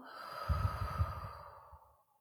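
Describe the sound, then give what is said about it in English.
A slow, deep breath is exhaled through the mouth during a guided breathing exercise: a soft, breathy rush that builds and then fades gradually into silence over about two seconds. “Letting it go through your mouth. Two more just like that. Inhaling slow. Letting it go.”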